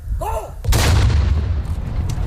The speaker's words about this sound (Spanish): Se dispara el cañonazo de las 12, que anuncia la llegada del mediodía.